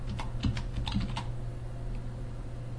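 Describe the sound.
Typing on a computer keyboard: a few quick, light keystrokes in an irregular rhythm, then fewer and fainter taps over a low steady hum.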